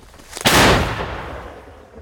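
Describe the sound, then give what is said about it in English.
An artillery shell fired by soldiers on a Ukrainian front line: one heavy, booming blast, briefly preceded by a faint crack, then a long rumbling decay. “They're firing to defend the tiny gains of Ukraine's counter-offensive. But now, they are outgunned by Russian troops trying to surge forwards. You can hear how many shells they fire back.”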